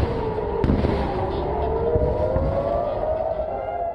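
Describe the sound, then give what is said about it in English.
A civil defense siren wails near Tel Aviv during a Hezbollah rocket barrage. Early on, one sharp explosive bang cuts through the steady, rising siren tone over a rumbling background. “Hezbollah fired almost 200 rockets and other projectiles into northern and central Israel, injuring 7.”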